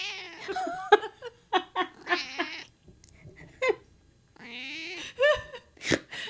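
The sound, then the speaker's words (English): A cat meows right into a microphone, a string of loud, nasal, wavering calls with bending pitch, some coming in quick pairs and others separated by short pauses. “my cat was standing in front of my face just meowing into the microphone.”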